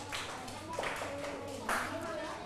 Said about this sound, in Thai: ทุกคนปรบมือให้กลุ่มที่4หน่อยค่ะ